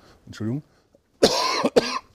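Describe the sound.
Coughing from lingering chest congestion: a short, voiced throat sound, then two harsh, rough coughs in quick succession, loud and alone.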